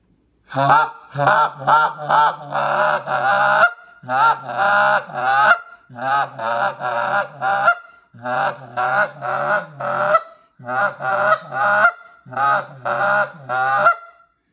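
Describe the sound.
Geese on the ground give many loud, nasal honks and clucks in quick clustered runs, separated by short pauses and heard alone without talk.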